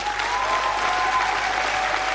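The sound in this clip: Audience applause for a party chair after her candidacy speech at a party congress: dense, steady clapping from a large crowd that holds at an even loudness throughout, with no break or voices standing out.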